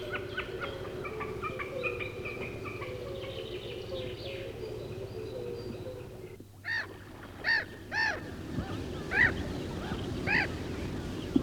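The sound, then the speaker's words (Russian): Snipe calling: a short series of repeated, evenly spaced sharp calls, fairly faint, following a stretch of steady low background sound. “Это голос бекаса.”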